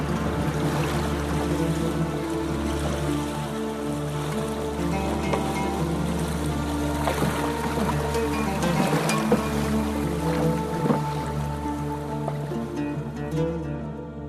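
Stormy sea waves and wind surge around a boat in a continuous, loud, rushing wash with no pauses. A low, steady tonal hum runs beneath the surf throughout.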